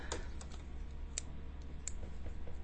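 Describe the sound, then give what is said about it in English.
Fidgeting clicks and taps, several brief sharp ticks scattered irregularly over a steady low hum, faint and without talk. “I'm fidget. You can hear me fidgeting and clicking and tapping.”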